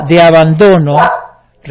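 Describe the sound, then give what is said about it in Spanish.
Pet dogs bark in a few loud, drawn-out, strongly voiced barks in quick succession, then a short pause before another bark begins. “Disculpen a mis perros, pero les gusta ladrar.”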